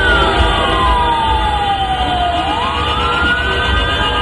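An ambulance siren wails in traffic while stuck in a jammed road, a single loud continuous tone that slides slowly downward, then rises again, over a steady low rumble of traffic.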